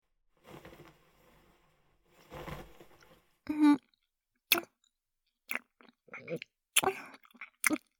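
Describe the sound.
Chewing and eating sounds, a series of irregular moist bursts and clicky bites, some soft and drawn out and others short and sharp, with no talk.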